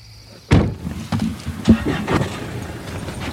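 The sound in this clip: Car doors and knocks as people get into a car to set off during a night outing searching for bats: one sharp bang, then a few softer thumps and clatters over a low, steady rumble.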